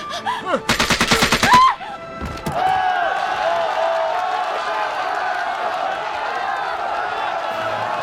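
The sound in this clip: Gunshots ring out during a hostage standoff: a rapid burst of many sharp cracks fires for about a second, followed by loud, sustained crowd-like noise.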